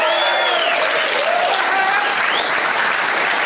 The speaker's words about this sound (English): you don't need to leave the applause sign off for so long. You know, for the listeners, that's fun. Say there was an applause sign.